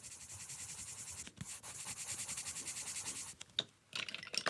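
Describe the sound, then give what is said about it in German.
A female figure is drawn by hand, the drawing tool giving faint, rapid, rhythmic scratching and rubbing strokes, broken by a brief pause and followed by sharper, choppier strokes near the end. “Jetzt zeichne ich eine von diesen Frauenfiguren. Die mache ich immer als Signaturzeichnung.”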